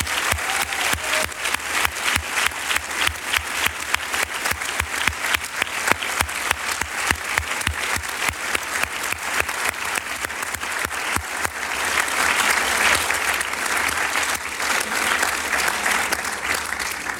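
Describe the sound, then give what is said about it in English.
An audience applauds as actor Uma Thurman and director Quentin Tarantino take the stage at a film discussion event. Dense, steady clapping continues throughout, then swells into a fuller, louder wash in the later part. “So please join us in welcoming these great talents. Uma Thurman, Quentin Tarantino, will you come and take the stage?”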